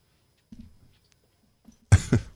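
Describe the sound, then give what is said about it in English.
Coughing fit: a few faint, low coughs, then a short pause, then two loud, harsh coughs in quick succession, alone with no talk. “I hate when that happens. It's like uncontrollable coughing.”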